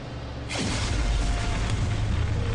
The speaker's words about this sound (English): Your plane explodes and your boat explodes apparently as well